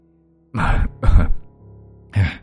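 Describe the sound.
An older man coughs after having fainted outside: three harsh, breathy bursts, the second trailing into a lower rasping sound, followed by a pause before the last cough.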